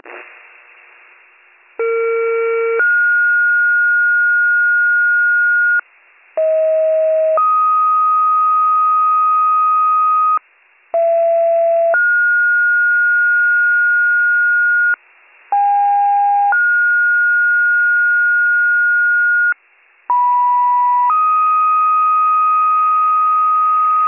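Fire dispatch paging retone tones over Warren County fire radio for a structure fire: five loud, pure two-tone sequences, each a short tone stepping into a longer steady tone, separated by brief silent gaps.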